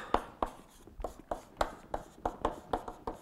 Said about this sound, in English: I'm writing in the dark.